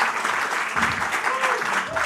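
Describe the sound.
Audience applause welcoming a guest: dense, steady clapping that fills the whole clip at an even loudness, with a voice faintly audible over it.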